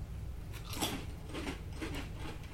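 Crisp crunching as a quesadilla-flavoured potato chip is bitten and chewed: a few sharp, dry crunches over a steady low background hum, with no talk.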